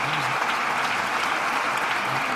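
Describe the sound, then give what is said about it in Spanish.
Theatre audience applause at the Gran Teatro Falla after a carnival chirigota's pasodoble: a thick, continuous roar of clapping from a large crowd, steady in loudness throughout. “Muy aplaudida, ¿eh?, esta letra por parte del Gran Teatro Falla.”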